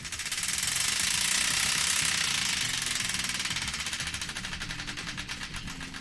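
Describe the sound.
A prize wheel spinning in a game segment, giving a loud, dense, rapid ratchet of clicks that continues without a break, with music playing underneath.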